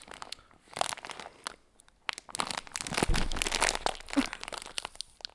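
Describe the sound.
A plastic bag of chili crinkles and tears as someone struggles to open it, giving irregular bursts of crackling and ripping that grow louder and busier in the second half.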